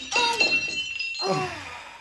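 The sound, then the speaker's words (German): A mirror pane on a bathroom wall cabinet shatters: bright clinking glass bursts first, then a second crash of breaking glass, with high ringing fragments lingering in between. “Jetzt habe ich mich an dem Glas geschnitten. Ja, und kaputt ist er auch, der Spiegel.”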